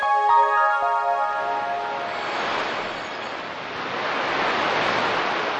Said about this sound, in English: That's the sound of a gusty breeze. It's not blowing across the Great Plains or some other icy domain, though. Instead, it's blowing throughout the solar system.